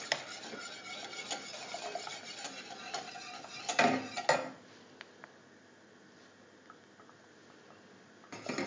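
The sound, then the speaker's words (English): A whisk working through very thin liquid custard for zuppa inglese in a pot on medium heat, a steady scraping and rasping of wire against metal that grows a little louder, then drops to a faint, quieter stir. “So now we have to whisk this very thin liquid custard for the moment on medium fire until it thickens.”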